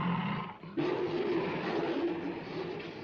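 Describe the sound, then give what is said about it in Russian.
Roaring of a tiger fighting with a lion on a ship's deck, a loud, continuous, rough growling roar that sustains throughout with only a brief dip near the start. “Один из тигров сцепился со львом.”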